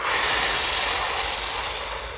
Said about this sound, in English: blow all the air in your lungs right now out through the mouth